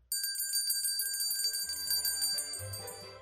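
A bright bell ding sound effect, like a bicycle bell, sounds right at the start. Its clear, high ringing tones sustain and gradually fade over about three seconds.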